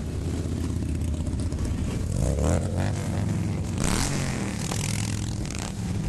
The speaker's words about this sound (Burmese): rolling တနာလို့ခေါ်တဲ့ motorcycle တွေ Washington DC မြို့တော်မှာစုဝေးကြပါတယ်။ဆိုင်ကယ်စီးသူ9သိန်းလောက်ဟာမြို့ကိုလှည့်လည်မောင်းနေတာကြောင့်မိုးချိမ့်တန်လို့လဲကြားနေရပါတယ